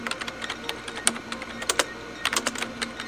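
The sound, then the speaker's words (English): Rapid typing on a computer keyboard, many irregular clicks and taps in quick bursts over a faint steady hum. “Just tell us. Hurry. Type in Andromeda Radio Wave Study.”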